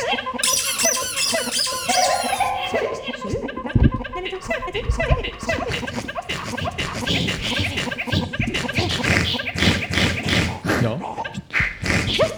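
Toy crocodiles squeak loudly and continuously, played as a duet at a concert, with dense high squeals and scratchy noises running through the whole stretch.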